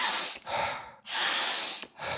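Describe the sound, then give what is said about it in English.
Loud, hissing breaths from a breathing exercise that stresses the inhale to generate heat, with inhales twice as long as exhales. Long, forceful airflow alternates with shorter breaths, with no talk. “So what you want to do to generate heat is you want to put the emphasis on the inhale.”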